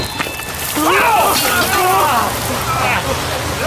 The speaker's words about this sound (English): The water is boiling! I'm blinded by steam!